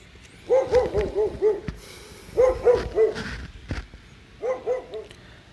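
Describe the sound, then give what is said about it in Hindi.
Several dogs bark loudly and sharply in three quick bursts of rapid barks separated by short pauses, with no other sounds alongside. “तभी कुत्ते तेजी से भौंकने लगे”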